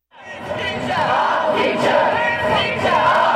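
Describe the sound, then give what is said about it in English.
UK school students on a climate protest march shout and cheer together as a crowd. The noise swells quickly from quiet and holds as a loud, continuous roar of mixed voices. “That was the sound of students in the UK who on Friday walked out of schools to march against the government's inaction towards climate change.”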